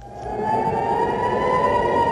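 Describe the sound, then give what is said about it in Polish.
Air raid sirens sounding at night in Tel Aviv during rocket fire: a loud, sustained siren tone with rich harmonics holds at a steady pitch throughout, with no voices. “Syreny alarmowe po raz kolejny odezwały się w nocy w Tel Awiwie.”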